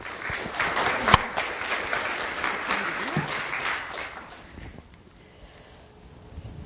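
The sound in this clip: An audience applauds to welcome a speaker to a talk on sexual variations. The clapping is dense and sustained, then thins out and fades toward the end.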